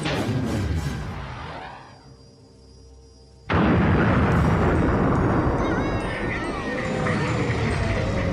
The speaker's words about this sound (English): Torpedo away.